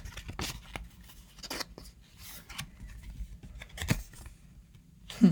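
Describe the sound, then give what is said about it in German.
A deck of cards being shuffled, with faint, papery rustles and flicks in scattered bursts and a slightly louder thump at the end. No one talks. “Ich werde jetzt mischen und werde eine raussuchen und mal sehen, ob sie zu dem Thema heute passt.”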